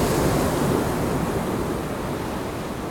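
Large ocean waves crashing as a broad, continuous roar of surf that stays loud throughout and eases slightly toward the end, with no voices.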